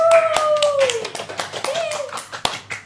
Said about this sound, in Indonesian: Mari kita beri sambutan meriah kepada saudara Ajay.